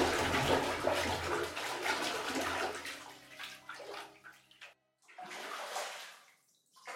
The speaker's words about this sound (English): I got home late, and all I wanted to do was take a bath. I sank into the warm water,